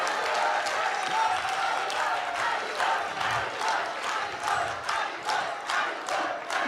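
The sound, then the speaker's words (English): Applause and cheering from a devotional gathering for the young devotees who led the kirtan: clapping mixed with crowd shouts, the claps landing in a rough regular pulse across the stretch. “And let's give a huge round of applause for all these beautiful young Vaishnavas and Vaishnavis who led the kirtan with Prabhu.”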